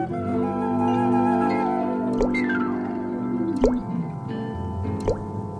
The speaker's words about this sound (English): Then something wet fell on his toes. Drip, drop, plip, plop.